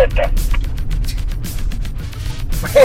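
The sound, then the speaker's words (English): Rumbling and rattling of a family estate car with bikes on the roof, driving over rough cobblestone pavé at about 60 km/h, a loud steady low roar with voices talking over it. “That's the sound of the pavé. Fucking state of it. I mean, they're travelling at 60k an hour down here.”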